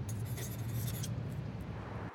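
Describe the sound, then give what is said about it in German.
Pen scratching across a sheet of paper as someone writes a short note, a soft, steady scraping rasp that runs continuously for about two seconds with no talk over it. “Hoffentlich holt sie auch einen Zettel und Stift. Nicht, dass ich es jetzt ganz versaut habe. Ich schreibe auch Hi.”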